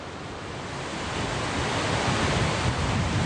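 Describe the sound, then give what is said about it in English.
Surf washes steadily on the Tasman Sea coast at the Waikato River mouth, a dense, continuous roar of breaking waves that swells slightly louder over the few seconds. “A river that flows clear and crisp from the northern tip of Lake Taupō and ends here at Port Waikato on the Tasman Sea.”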